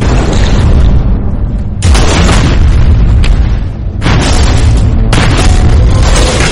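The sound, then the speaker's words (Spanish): Heavy booms of depth charges exploding near a U-boat, a loud, continuous rumbling roar broken into several long, dense bursts with no voices. “El U-Boat se ha movido lo suficiente como para que las cargas de profundidad golpeen en la cubierta de popa y salgan disparadas antes de detonar.”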